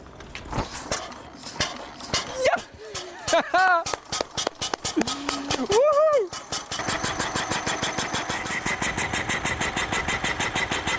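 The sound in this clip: An early car engine is started: sputters and clicks come under talking voices, then the motor catches and settles into a fast, even, rhythmic chugging for the last few seconds.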